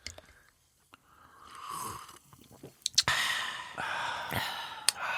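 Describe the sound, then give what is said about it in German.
People drinking during a deliberate silent pause, with soft mouth and swallowing sounds and a few breathy, satisfied sighs and exhales, with no talking. “er wollte doch mal einmal so eine ASMR-Pause machen und alle einfach nur trinken und nichts sagen.”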